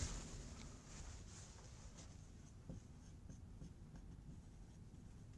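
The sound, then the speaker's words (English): Handwriting scratches softly as equations are jotted down during a physics lecture, a faint, continuous run of strokes with a few brief taps, and no voices heard. “And of course, you can write”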